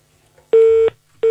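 Busy tone on a telephone line after a call is cut off: one clean, steady mid-pitched beep, a short gap, then a second beep starting at the end.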